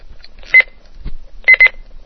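An alarm clock beeps while its button is held down: one short, sharp electronic beep, then two quick beeps close together later, with a soft low thump between them.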